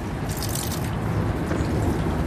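Water pours from a small wooden ladle onto a hand, a steady wet splashing trickle that runs without clear breaks and stays fairly loud throughout.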